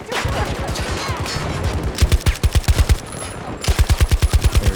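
Rapid automatic gunfire from a gun in a video game. Several fast bursts of sharp, punchy shots are separated by brief pauses, with no voices over them.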